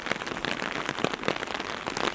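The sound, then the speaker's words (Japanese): Rain falls on a surface in a soft, continuous patter of many small drops, quiet and steady throughout. “いつかはこの雨は止んで晴れたりして、また曇って雨が降って、”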